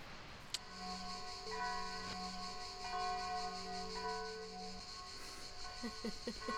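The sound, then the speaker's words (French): Bells ringing in sustained, steady tones, their clear ringing partials layered and overlapping at a moderate level throughout, with no voices. “C'est marrant, à chaque fois que je te pose cette question, il y a des cloches qui se mettent à sonner.”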